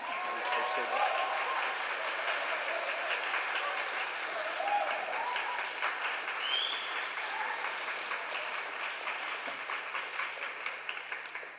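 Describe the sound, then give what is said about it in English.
A church audience applauds to welcome a speaker, holding steady and full for about eleven seconds, with a few voices rising over the clapping. “Let's give Christian a big warm welcome.”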